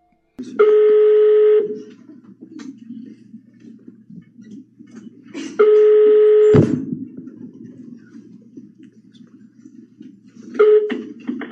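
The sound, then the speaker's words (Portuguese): Ringback tone of a call placed on an intercepted telephone line: three steady tones, each about one second long, separated by pauses of about four seconds with faint line noise. The last tone is cut short. “Também gravou uma ligação do padrinho do Bernardo quando ele já estava desaparecido há dias.”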